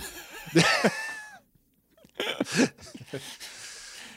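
Harsh throat clearing mixed with rough coughing bursts, a short silence, then another round of raspy clearing and huffs, fairly loud and close.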